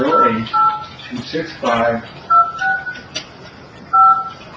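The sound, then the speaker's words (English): Keypad tones of a telephone number being dialed: a few short dual-pitched beeps, spaced irregularly and mixed in with talking. “I'll dial the wrong number. Let's try again.”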